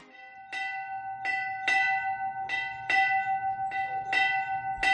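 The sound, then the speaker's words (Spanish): A church bell rings in its bell tower, with repeated clanging strikes at an uneven pace. Each strike carries bright, lingering metallic overtones, and a low hum runs steadily underneath. “Bueno, su sonido es inconfundible, ¿eh? Estoy segura de que la imagen, cuando escuchas esto, que nos viene a la cabeza es pues la del campanario de una iglesia, de una parroquia”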